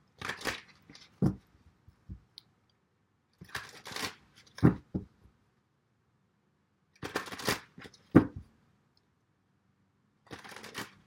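Tarot cards are shuffled in four separate bursts of soft papery riffling and light slaps, each lasting about a second or two, with quiet pauses between them.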